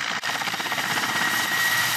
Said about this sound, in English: In their battle against Russia, Ukrainians are using the Mi-8, a medium twin-turbine helicopter equipped with unguided missiles.